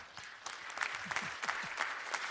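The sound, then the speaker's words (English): Audience applause welcoming a preacher to the front: a brief burst of steady, dense clapping that holds at an even level throughout. “Would you welcome him the way we know how, please?”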